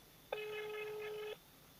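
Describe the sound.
A single steady electronic telephone tone sounds while a call is dialed, holding a level, even pitch for about a second before cutting off cleanly, with no voices over it.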